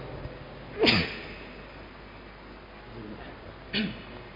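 A single sharp sneeze bursts out of a quiet, low background, brief and forceful, with only faint murmuring noise around it.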